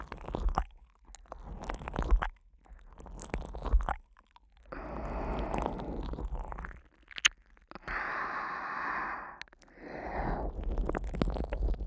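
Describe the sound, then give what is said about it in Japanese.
Wet ear-licking mouth noises for ASMR, close and squishy, with smacking, slurping textures in several long stretches broken by short pauses of near silence. Sounds rise and fall in loudness throughout, with no speech. “こんな風に耳を舐めますので”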